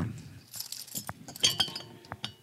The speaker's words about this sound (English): So I'm super excited to try this autumn IPA here. Let's crack her open.